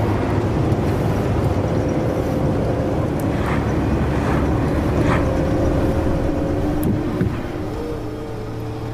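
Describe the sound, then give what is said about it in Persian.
Steady car engine and road noise as a car speeds up to overtake a Nissan in a no-passing zone. The low rumble holds loud and even, then eases slightly near the end. “جلال سرعت رو زیاد میکنه. در منطقه سبقت ممنوع از نیسان جلوی سبقت میگیره.”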